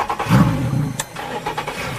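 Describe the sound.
A boat engine rumbles as the boat edges closer to the shore off Mayotte. A heavy low throb swells early, then settles into a steady mid-pitched hum with a few small bumps, heard alone.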